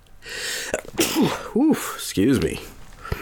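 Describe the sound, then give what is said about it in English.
A human sneeze bursts out amid several short voiced vocal sounds, with a few loud, abrupt breathy blasts separated by brief pauses. “that was a sneeze.”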